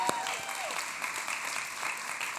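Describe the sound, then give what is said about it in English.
Audience applause: steady, dense clapping from a crowd that holds at an even level throughout, with no voices over it. “Don't clap for me.”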